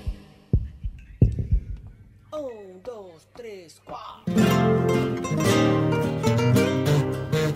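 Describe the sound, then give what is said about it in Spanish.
A heartbeat sound effect in a radio jingle: a few deep, soft thumps open it, then swooping electronic tones lead into loud, full music. “Latidos de radio.”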